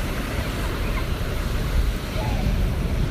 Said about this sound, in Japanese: 波の音まで綺麗に入ってるといいなと思います。